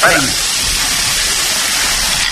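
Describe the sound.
A lottery drum spins with numbered balls tumbling inside, making a loud, continuous rattling rush that holds steady throughout, with a brief voice at the very start.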